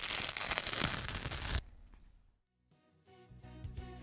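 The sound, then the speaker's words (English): A plaster, or adhesive bandage, is ripped off in a loud, rasping tear lasting about a second and a half, then drops abruptly to a softer crinkle and a brief near-silence before faint sounds resume. “I don't know if you guessed it, but it was tearing off a plaster.”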